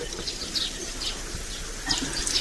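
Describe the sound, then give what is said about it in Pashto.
Warm water poured over hands for washing with soap: a faint, continuous splashing trickle with a few brighter splashes, heard alone. “اوبه نیسه لاسونه دا صابون هم در واخله، زه به ګرمې اوبه در واچوم.”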